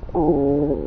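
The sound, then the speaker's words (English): Hungry stomach rumbling: one drawn-out tonal growl lasting under a second, fairly loud, with a steady buzzy pitch and no other sound around it. “Listen to my stomach right now. Listen, I'm going to put it by my stomach.”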